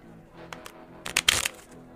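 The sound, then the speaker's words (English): Playing cards handled by a dealer cutting the deck for a blackjack game: a couple of soft clicks, then a brief, crisp riffling burst of card noise over a low steady hum, with no talking. “Dealer, cut us some cards for a game of blackjack.”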